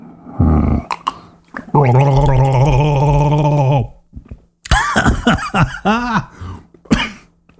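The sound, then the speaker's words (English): A person gargles whiskey in one long, loud bubbling gargle, followed by coughing and throat-clearing noises. “you're going to get me gargling whiskey.”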